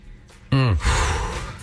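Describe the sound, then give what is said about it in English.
Heavy, out-of-breath breathing: a sharp voiced gasp followed by a long, loud, breathy exhale, heard alone. “God, I'm out of breath right now.”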